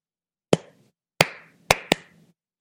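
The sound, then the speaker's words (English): Hands clap a swung quarter-eighth-eighth rhythm: five sharp, dry claps, each with a short decay and silence between them. The spacing is uneven, with a long gap, a short pair, then another long gap. “A rhythm with a quarter note and two eighth notes, where the eighth notes are played straight, would sound like this. Quarter, eighth, eighth, quarter, eighth, eighth, quarter, eighth, eighth, quarter. If that same rhythm was played swung, it would sound like this.”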